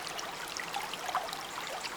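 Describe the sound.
A stream runs over mossy rocks with soft, steady trickling and gentle gurgling. The flow is faint and continuous, with small splashy flickers scattered through it and no voices.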